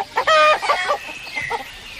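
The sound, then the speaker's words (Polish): Hens and roosters clucking and crowing together in a loud, busy burst of harsh squawks and cackles that tapers into quieter scattered clucks. “A co to za awanturka? Kury z kogutami.”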